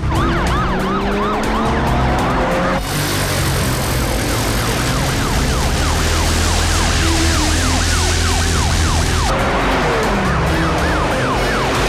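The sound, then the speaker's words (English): Sirens wail from two police cars speeding along the sands, the loud sweeping tones overlapping continuously with engine roar beneath them throughout. “Two police cars speed up the sands”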